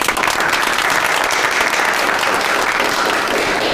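Loud, dense applause from a meeting audience welcoming colleagues from the publicity department, a continuous even clatter of many clapping hands that holds steady throughout.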